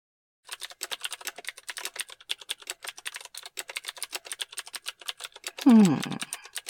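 Rapid typing on a computer keyboard: many quick, crisp keystrokes in an uneven steady stream, with a brief voiced sound breaking in near the end while the clatter continues.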